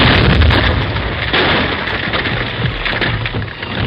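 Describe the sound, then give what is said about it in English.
Blasting in a gold mine tunnel as a loud, sustained rumbling roar that stays dense and steady throughout, with no separate bangs and no talk. “Each blast sent loose shale sliding into the valley.”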